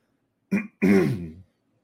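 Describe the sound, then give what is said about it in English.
Someone clears their throat in two bursts: a short rasp, a brief pause, then a longer, harsher clearing. Both are fairly loud, with no talk. “Apologies for the throat clearing.”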